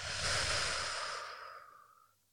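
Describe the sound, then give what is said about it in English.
A single forceful breath out through the mouth, taken as a breathing exercise: a loud, breathy rush that starts strong and slowly tapers away over about two seconds. “Inhale again and exhale with a little bit more force.”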